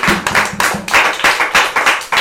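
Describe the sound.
Congregation clapping in rhythm during a church service, a steady run of sharp, even handclaps with a low tonal undertone beneath them.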